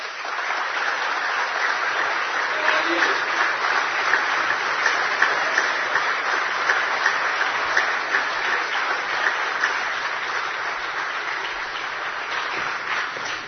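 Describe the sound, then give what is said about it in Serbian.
Audience applause at a gathering following speeches: dense, steady clapping that holds at an even loudness for about thirteen seconds, with no talk over it. “Hvala vam, volim aplauze”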